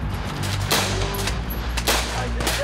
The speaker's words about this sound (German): Und ich habe echt das Gefühl, ich bin hier mitten auf einem Schlachtfeld, trotz Platzpatronen.